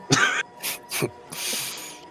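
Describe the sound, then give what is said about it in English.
Throat clearing and coughing from a man: a few short, harsh bursts followed by a longer, breathy rasp. The sounds are fairly loud and come alone, with no talk. “You got something in your throat?”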